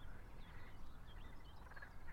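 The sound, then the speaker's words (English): Frogs croak in a faint, continuous chorus of overlapping calls just above a steady hiss of background noise, during a search for Europe's largest frogs. “oh, the frogs are really going. I don't know if that cuckoo set them off.”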